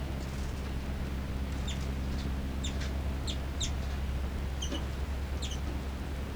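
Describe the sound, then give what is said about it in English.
Two birds chitter and call, with many short, high chirps in scattered clusters over a steady low background noise. “Chitter by both birds. Calls by 3-3, then 5-9 response.”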